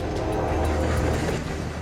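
A train moving along the rails at speed gives a steady, heavy low rumble with a broad wash of rolling noise above it, continuous and loud for the whole moment.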